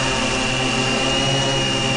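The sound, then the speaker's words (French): A postal parcel-delivery drone flies to a mountain village with a loud, continuous whirring hum of rotors and motor. The tone stays steady and unbroken for the whole clip, with no talk. “n'a pas hésité longtemps avant de choisir un drone. L'engin volant permet d'atteindre des villages, et ce, quelle que soit la météo”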